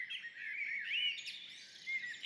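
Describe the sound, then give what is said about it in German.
Birdsong drifting in through open windows during a recording session: faint, continuous high twittering with a few brighter chirps, heard alone without speech. “Hübsches Vogelgezwitscher bei den Aufnahmen. Ja? Ja, wir hatten die Fenster auf.”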